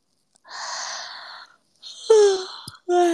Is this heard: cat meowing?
no